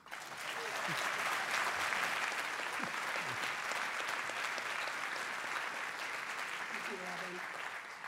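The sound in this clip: Sustained audience applause at the City Club of Cleveland welcoming a U.S. senator and his guest to the stage, a dense, steady roar of clapping that holds its level throughout, with a few voices faintly audible underneath.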